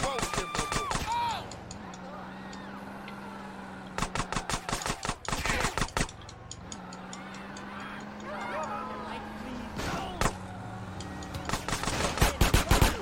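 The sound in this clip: Bursts of rapid gunfire ring out in a video game as a man shoots at the player while police pass by. Several loud, crackling volleys are separated by quieter stretches with a steady low hum.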